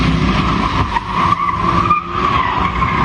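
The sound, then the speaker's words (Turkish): Car tires screeching as four cars drift on a residential street, a loud continuous squeal that wavers in pitch over a steady engine roar throughout. “Sokağı piste çevirdiler, drift attılar, gürültüleriyle mahalleliği canından bezdirdiler.”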